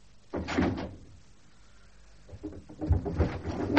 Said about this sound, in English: Someone open these windows immediately.